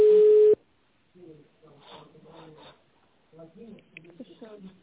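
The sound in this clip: A short, steady telephone line tone sounds once as a call is being connected, then cuts off and voices speak on the line.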